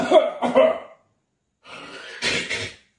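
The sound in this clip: Harsh coughing from something caught in the throat comes in two bursts separated by a short pause, the second rougher and more breathy, loud with no talk over it.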